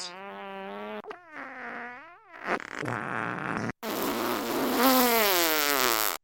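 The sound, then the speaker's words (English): A long, drawn-out fart, loud and buzzy, with wavering pitch that bends up and down across several segments broken by brief gaps. “I'm sorry, I about passed out from from Papa Nurgle's fart.”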